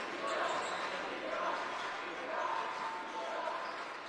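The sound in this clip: Basketball dribbling during a college basketball game, bounces blended into a steady, continuous wash of crowd noise.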